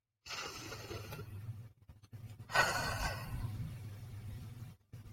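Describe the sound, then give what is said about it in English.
A deep breath, heard alone and soft: a long airy inhale, a brief pause, then a longer, slightly fuller exhale that fades out. “So I know I didn't start out the podcast with a deep breath, but we'll end with a deep breath.”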